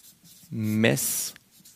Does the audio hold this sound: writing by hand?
yes